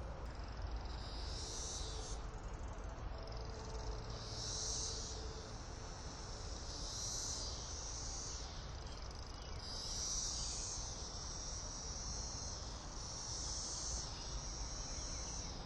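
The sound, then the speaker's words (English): Cicadas chirp outdoors on a walk. Their continuous high, buzzing drone swells and fades in regular pulses, and the sound stays faint throughout with no voices. “Today I am out walking among the cicadas. You may hear them in the background.”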